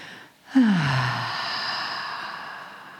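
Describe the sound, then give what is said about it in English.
A deep breath drawn in during a guided relaxation: one long inhale that swells suddenly, then fades slowly over a couple of seconds, alone and with no talk. “So just take a breath in.”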